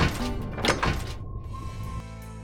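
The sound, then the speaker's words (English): A submarine hatch is shut and locked with a couple of heavy, hollow thunks, followed by a brief mechanical whir and a low, steady hum. “Lock the hatch. Locking hatch.”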